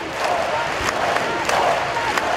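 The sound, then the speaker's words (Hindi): A large crowd in Spain chants and shouts in unison after a minute's silence at a memorial gathering for attack victims, a loud, steady roar of many voices. “Spain के बादशाह की अगुवाई में 1 minute का मौन रखा गया और उसके बाद भीड़ ने तालियां बजाई, नारे लगाए।”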